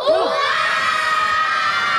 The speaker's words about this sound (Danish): hvis vi har haft det, skal vi så råbe rigtig, rigtig højt jule- og nisse-hurra.